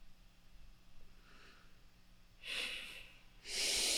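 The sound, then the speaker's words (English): A person takes a deep breath in and exhales: two soft, airy breath sounds after a quiet lead-in, the second longer and fuller than the first, with no voices. “Deep breath and exhale.”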